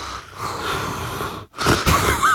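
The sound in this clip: Heavy, wheezy breathing: a long rasping breath, a sudden short silence, then another loud, hoarse breath with a faint whistling edge.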